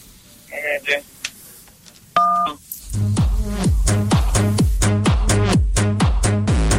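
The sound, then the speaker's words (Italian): A single brief keypad tone sounds as key 1 is pressed on a telephone to confirm an order. It is a steady beep after a few seconds of talk, and rhythmic hold music follows right after. “Se per favore mi può premere il tasto 1.”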